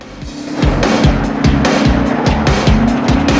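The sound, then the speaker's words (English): A car is shoved backwards by the shovel of a JCB digger, its tyres squealing and scraping in a loud, steady, rhythmic series of strained, wavering tones over a heavy low engine rumble. “Over a hill, he goes straight into the shovel of a JCB. Mark, head down, grips the wheel as his car is pushed backwards.”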